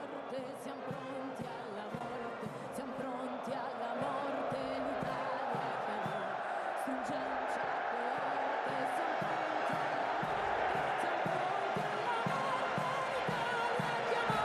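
A stadium crowd at a cup final sings along to the Italian national anthem. The dense massed chorus is loud and sustained, with steady rhythmic clapping beats throughout.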